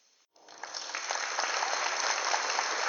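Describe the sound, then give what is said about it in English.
A crowd gathered in Madeline Square bursts into applause after a moment of quiet, and the clapping swells into a steady, loud roar. “And now, we are interrupting our scheduled program to cut to Hedonistic Thrill and the crowd gathered in Madeline Square.”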